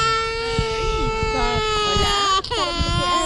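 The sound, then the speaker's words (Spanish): A small child of about two cries while his family sleeps rough on the ground outdoors: a sustained, high, wavering wail that runs through the whole clip beneath adult talk. “El pequeño llora”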